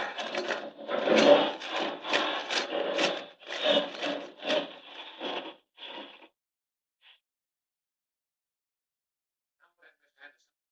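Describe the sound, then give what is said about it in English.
Rasping, grinding effect of Superman boring straight through solid rock in a radio drama: a rapid train of rough pulsing bursts for about six seconds, then a few faint traces as it stops. “No time to find the entrance. I'll just drive straight to it through the solid rock. Here goes!”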